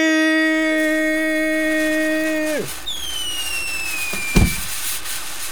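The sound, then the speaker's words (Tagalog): New Year fireworks sound effect: a steady tonal hum that falls away, then a whistle sliding down in pitch, followed later by one sharp bang. “Yung may pa-fireworks pa na effect.”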